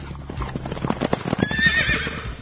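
Horse hooves clip-clop in a quick, steady rhythm of many beats, and a high, wavering whinny rises over them midway.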